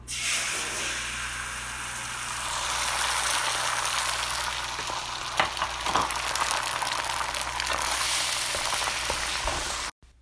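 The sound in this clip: Eggs sizzling in a pan with a decent amount of melted butter, a loud, steady frying hiss that swells slightly and holds for about ten seconds before cutting off abruptly, with no talk.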